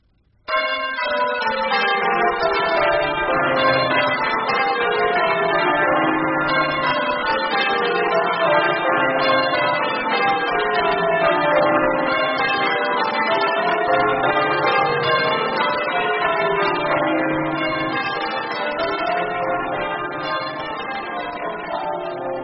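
Church bells ring in a continuous, loud peal, with many overlapping metallic strikes and a steady rolling rhythm that goes on without a pause.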